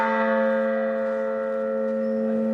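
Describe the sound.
A church bell from a tuned peal rings with one sustained, humming tone and rich bright overtones. It holds steady and fades only slightly.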